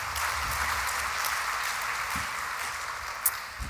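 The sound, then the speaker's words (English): An audience applauds to thank someone for a welcome speech at an evening event. A steady, fairly quiet wash of many hands clapping continues evenly throughout. “Can you join me, please, in thanking Dure again for that welcome?”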